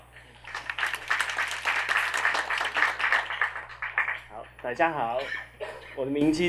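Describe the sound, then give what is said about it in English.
Audience applause welcomes a software test engineer from an Office interoperability team at a developer presentation: dense, sustained clapping for about four seconds, then a man begins speaking. “掌声欢迎。”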